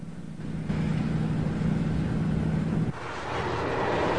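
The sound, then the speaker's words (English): Car engine droning as the car speeds along a twisting road through a parched landscape, a steady low hum that holds for a few seconds, then drops abruptly into a softer, rougher rush. “As the car speeds on through the parched landscape, the road twists and turns towards a rocky plateau in the distance.”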